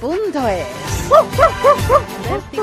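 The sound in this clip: A small dog barks happily in a quick, bouncy run of five high-pitched yips.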